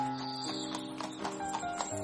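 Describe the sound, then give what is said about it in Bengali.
Rhythmic clip-clop of hooves from a two-horse carriage moving off down a lane, a few sharp hoof strikes at an even trot over a steady tonal background, with a faint whinny-like tone. “জুড়ি গাড়ি সমস্ত গলিকে কাঁপিয়ে দিয়ে মুহূর্তের মধ্যেই অদৃশ্য হল।”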